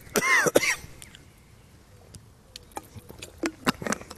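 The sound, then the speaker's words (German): Coughing from someone who has choked on something swallowed: a couple of sharp, loud coughs right at the start, followed by quieter scattered clicks and taps. “Entschuldigung, ich habe mich verschluckt. Ich muss einen Schluck.”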